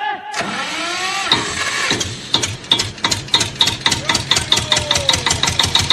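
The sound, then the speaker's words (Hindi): A generator is started: a rising mechanical whine comes first, then the engine settles into a steady run with a loud, evenly spaced knocking pulse that repeats many times. “अरे हाँ हो ए तो generator चालू कर रहे।”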